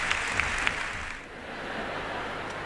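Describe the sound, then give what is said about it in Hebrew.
Audience applause for Frank Sinatra as he takes his bows at a concert: dense, continuous clapping that thins out partway through and carries on more softly. “ושוב, מחיאות הכפיים, קידות של פרנק סינטרה.”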